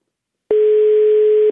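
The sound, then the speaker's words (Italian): A telephone ringing tone while a call waits to be answered: one steady, unbroken beep at a mid pitch, about a second long, heard alone with silence around it. “Ma stai chiamando Marco? Aspetta, fammi sentire se risponde.”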